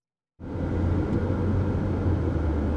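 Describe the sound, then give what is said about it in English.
A car drives along Illinois Route 1 south of Danville on a sunny August afternoon. Its steady road rumble and engine drone begin abruptly after a brief silence and hold at a constant level. “I'm driving along Illinois Route 1 south of Danville. It's a sunny afternoon in August as we approach the dividing line between the 2nd and 15th congressional districts.”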